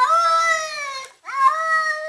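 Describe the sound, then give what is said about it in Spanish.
A cat gives two long, drawn-out meows separated by a brief pause, each voice-like and tonal, as if calling out a name. “hay gatos que saben decir que no. No. Otros llaman a Raúl.”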